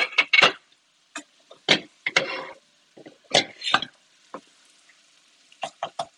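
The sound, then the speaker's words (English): Sausage frying in a skillet gives many short, irregular bursts of sizzling and scraping, like a spatula stirring and chopping, separated by quiet gaps. “We've got our sausage bubbling. I can hear it behind me.”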